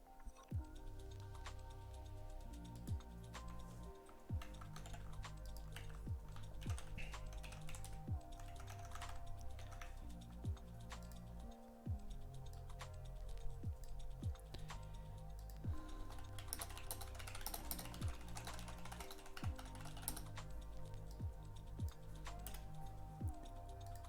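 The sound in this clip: Typing on a computer keyboard: a long, faint stream of many quick key taps in an uneven rhythm, with no voices over it.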